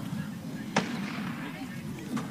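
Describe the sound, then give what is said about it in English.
A single sharp crack like a starting pistol or gunshot, apparently from a track meet near a baseball game, stands out briefly over steady background noise. “either somebody just got shot or the track meet started”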